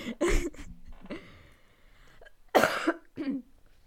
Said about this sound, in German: Man hustet ja, halt noch auch. ein, zwei Mal.